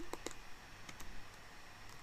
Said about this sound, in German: Wem schreibst du? Ich google gerade Bücher.